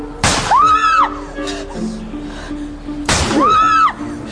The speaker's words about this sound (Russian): По словам девушки, во время вечеринки хозяин дома неожиданно достал отцовский пистолет и начал стрелять.